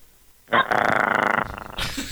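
A person imitates a growling dog with a loud, rough, rapidly pulsing growl that lasts about a second, then trails into a softer, breathy rumble.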